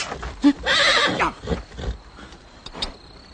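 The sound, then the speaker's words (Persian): A horse lets out a loud, harmonic whinny near the start, with a few brief thumps and scuffs around it and a faint high whistle-like tone later; no voices. “با صدای پای اسب عبدالله از خواب بیدار می شوند.”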